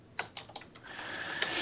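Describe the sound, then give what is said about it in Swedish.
Typing on a computer keyboard: a few sharp, separate key clicks at a quick, uneven pace, then a fainter steady hiss with one more click near the end. “Nu ska jag se vilka det var som har utvecklat det här. Smattra till lite på tangentbordet.”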